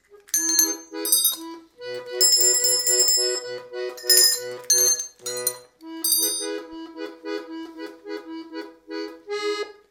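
Bells ring in a song about the evening bell: a continuous run of many bright, struck tones that overlap in a melodic pattern with brief pauses, moderately loud throughout and with no voices.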